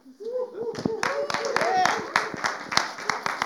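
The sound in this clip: A church audience claps to welcome a speaker at a morning service. The claps are crisp and fairly distinct, a steady run of many sharp hand strikes, with voices audible underneath.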